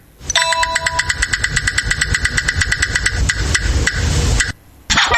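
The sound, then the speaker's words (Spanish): A prize roulette wheel spins with rapid, evenly spaced ticking over a bright ringing tonal layer. The ticks blur into denser noise, then stop briefly before a short final burst. “Listo, escuchen la ruleta.”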